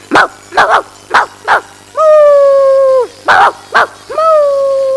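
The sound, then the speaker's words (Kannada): A voice imitates a dog in a mimicry act: four sharp barks, then a long steady howl, two more barks, and a second drawn-out howl. The sounds are loud and stand alone without other sounds. “ನಾಯಿಯ ಕೂಗು.”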